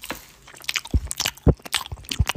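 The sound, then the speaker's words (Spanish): Food being chewed while people eat, heard as a series of crisp, irregular crunches and wet squishing bites, fairly loud, with no talk. “Hay que decir que estamos comiendo, ¿sabes?”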